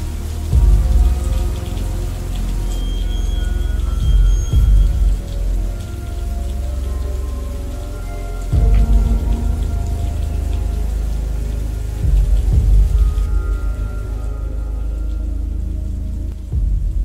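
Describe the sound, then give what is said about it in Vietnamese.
Heavy rain pours down steadily over a village, a loud, dense, continuous hiss of drops on surfaces with a few heavier thumps mixed in and no voices. “Trận mưa trút xuống làng Thảo Hòa to lắm. Cơn mưa bất thường không ai ngờ được.”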